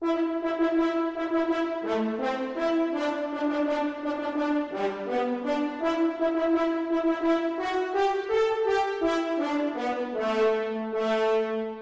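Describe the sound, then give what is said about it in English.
French horns play an American folk song tune, a steady melody of sustained, moderately loud notes that move step by step, with no talk. “What Shall We Do with the Drunken Sailor, played in the French horns.”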